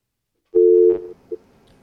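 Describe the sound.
An incoming call's telephone line tone sounds as one steady mid-pitched tone lasting about half a second. A brief second blip follows, with near silence around both.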